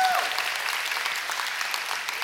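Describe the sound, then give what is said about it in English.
An audience claps and cheers at a church service for a student team, producing a dense, steady wash of applause that carries on at even loudness for the whole clip. “His dad's in the front row right there cheering.”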